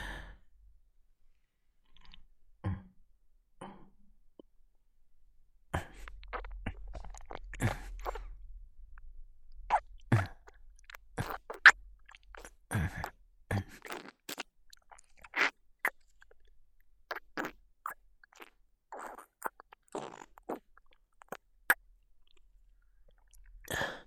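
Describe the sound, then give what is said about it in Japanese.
Someone slowly drinks water, making many quiet wet mouth clicks, sips and swallows separated by short silences. “水を飲んでいるだけなのに、そんなに気持ちよさそうな顔をしないで。”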